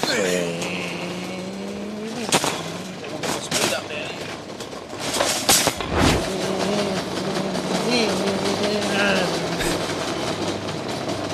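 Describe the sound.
A man imitates V8 engine noises with his voice while pushing a shopping trolley at a Coles supermarket, a buzzing, revving drone whose pitch wavers up and down, broken by a few sharp knocks.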